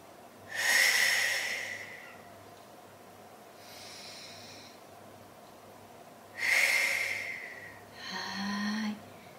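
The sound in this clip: Slow relaxation breathing, drawing air in through the nose and letting it out through the mouth. Two full cycles are heard, each a loud, airy inhale followed by a softer, breathy exhale, alone without talk.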